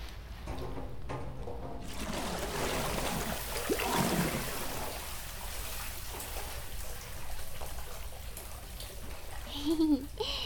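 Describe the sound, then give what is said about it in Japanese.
Hot bath water overflows and splashes as two people climb into the tub, a steady rushing, trickling wash that continues from start to finish at a fairly even loudness. “さすがに二人で入ればお湯もあふれるか。”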